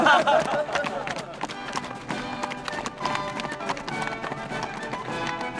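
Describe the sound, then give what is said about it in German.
Horse hooves clip-clop as two riders on horseback ride out of a fortress. A quick, continuous patter of hoofbeats keeps a lively, uneven rhythm from start to finish. “Simplicius erhielt zwei neue Pferde und ritt mit seinem Herzbruder freudevoll zur Festung hinaus”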